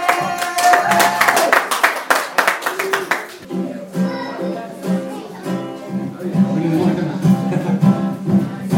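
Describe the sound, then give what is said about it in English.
An audience applauds a live stage act, with brisk, dense clapping for about three seconds before music begins. “Okay, please put your hands together welcome live on stage the second act today.”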